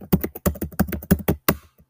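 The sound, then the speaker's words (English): Sharp clicks of a computer keyboard as a password is typed, many keystrokes in quick, uneven succession before the typing stops. “I just typed in my password. I've typed in my password multiple times.”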